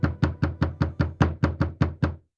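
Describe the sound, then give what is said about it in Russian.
Someone knocks loudly on a door: eleven firm, evenly paced knocks in a steady rhythm, each a short hollow thud, then silence. “Я так глубоко задумалась, что вздрогнула от громкого стука в дверь.”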